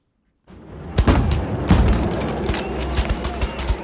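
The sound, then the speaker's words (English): Police firing rubber bullets at looters in Johannesburg: a rapid fusillade of many sharp bangs and thuds over a continuous rough din, starting suddenly after a short silence. “Police shoot rubber bullets at looters in Johannesburg.”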